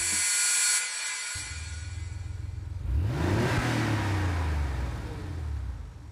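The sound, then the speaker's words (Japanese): Engine revving from a 1989–93 third-generation Porsche 911 Carrera 2 (964): a steady running rumble swells into a sharp rev whose pitch climbs quickly, then eases back down while the engine keeps droning. “ポルシェ911カレラ2 1989年から93年にかけて製造されていた3代目モデル”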